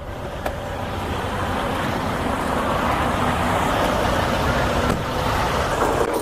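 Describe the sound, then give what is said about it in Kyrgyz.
At a truck stop where trucks fill up with diesel, a continuous rumble of engines and road noise holds steady throughout, with a couple of faint clicks over the drone. “Азыркы келген жер бул деген трак стоп деп аталат. Ушул жерден солярка куябыз.”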